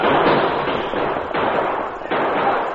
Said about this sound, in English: They fired back and they fired fast.